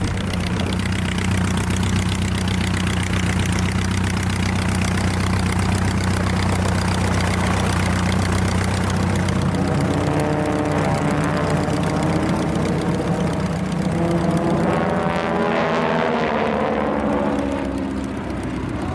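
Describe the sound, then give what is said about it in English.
Four Harvard piston-engine aircraft flying a formation display at an airshow give a loud, continuous propeller engine drone, with the engine pitch wavering and shifting through the second half. “the Southern Knights with their four Harvards have been doing their demonstration. I do not apologise for the background noise. Aircraft noise is good noise.”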